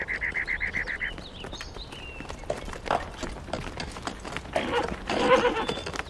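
Horse hooves clip-clopping along a road as a horse draws near a village, a quick, regular run of clops at the start giving way to looser, scattered clatter that swells toward the end.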